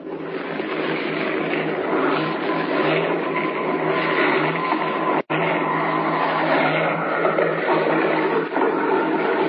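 A small airplane lands beside train tracks: a loud, steady, rough engine drone holds throughout, broken by one very brief dropout near the middle, with no voices.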